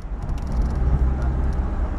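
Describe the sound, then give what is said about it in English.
A bus pulls away on a journey of more than sixteen hours to Harare, its engine a loud, steady low rumble with a faint hiss above it. “The bus leaves on its 16-hour-plus journey to Harare.”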